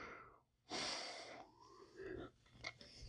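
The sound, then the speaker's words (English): A long human yawn begins with a loud, breathy, rushing inhale. It trails into a softer voiced exhale with a slight groan, and no speech is present. “sorry guys, I yawned again.”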